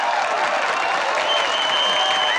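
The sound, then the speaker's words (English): Loud applause erupts from an audience after a performance by two girls, a dense, steady wash of clapping that holds at full strength for the whole two seconds. “the girls turn to leave. The audience erupts. The girls grin with relief.”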